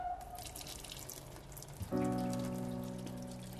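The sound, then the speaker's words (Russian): Water runs from a kitchen sink tap in a dark kitchen. A soft watery hiss comes first, then at about two seconds a sudden louder gush starts with a steady humming tone, and it keeps flowing evenly to the end. “По темному коридору проходит в темную кухню, подходит к раковине. Открывает кран.”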